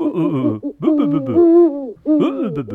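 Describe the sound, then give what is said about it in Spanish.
A person imitates an owl's hoot, voicing a few drawn-out, wavering hoots with short pauses between them. The tones are loud and clear. “De hecho, búho es latín en estado puro y es una palabra onomatopéyica. Es decir, se llama en latín bubo bubonis porque la palabra es como el sonido que hace así.”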